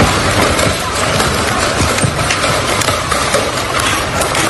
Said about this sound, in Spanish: en nuestras redes podrán encontrar el vídeo de una piscina con las aguas agitadas por la cantidad, el sonido corresponde a esta imagen, la cantidad y sobre todo el tamaño de las piedras que cayeron en pocos minutos, piedras de 10 centímetros